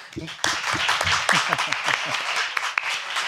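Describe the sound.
Audience applause for a person being introduced on stage: dense, sustained clapping from many hands breaks out after a brief moment and continues at a steady level while a voice keeps talking over it.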